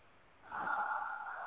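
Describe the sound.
A single soft inhaled breath, taken with eyes shut during a guided writing exercise, starting about a third of the way in and holding as a faint airy hiss to the end.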